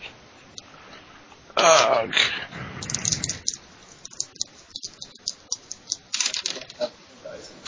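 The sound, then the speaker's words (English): Dice rolled during a tabletop game: a loud rattling burst, then many small, sharp clicks and taps tumbling on. “Everybody else is rolling dice.”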